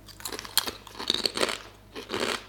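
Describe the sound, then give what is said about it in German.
Crunchy potato chips being bitten and chewed, harder and crisper than usual, producing a few sharp, bright crunching bursts separated by short gaps, fairly faint and without talk. “Die sind viel knuspriger als bei uns Chips irgendwie, so härter, knuspriger.”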